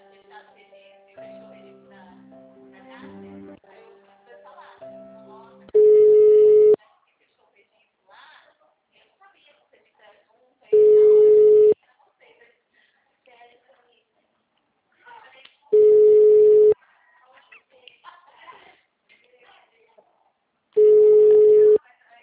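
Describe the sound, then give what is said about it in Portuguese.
Telephone line tones while a call is transferred: after an opening stretch of speech and faint tones, four long, low, steady beeps sound evenly, about five seconds apart, with quiet gaps between. “Aguarde. Estou transferindo sua ligação para o assistente.”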